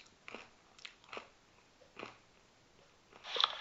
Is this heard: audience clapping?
no